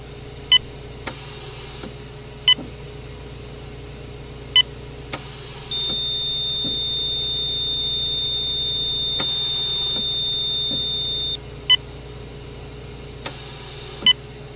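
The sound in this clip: Electronic beeping from a heart monitor during a heart check, short high beeps at a slow, fairly regular pace, broken midway by one long steady tone over a low hum.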